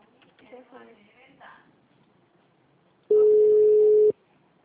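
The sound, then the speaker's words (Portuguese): A telephone line tone during a call that returns a busy number: one steady, mid-pitched electronic tone lasting about a second, sounding loud and clean after a short stretch of speech. “Eu tô ligando. Aí. O número está ocupado.”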